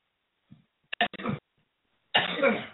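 Coughing from a lingering cold: a brief catch in the throat, then a quick burst of short, harsh coughs, a pause, and a longer rough cough at the end.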